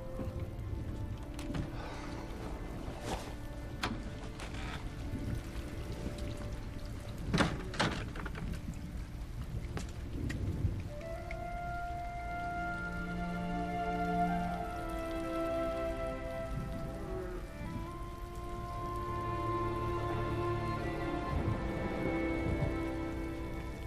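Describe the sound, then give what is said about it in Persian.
Rain falling outdoors, a dense, steady patter of drops that runs unbroken through the whole stretch at a moderate level. “این بیرون زیر بارون چی کار میکنی؟”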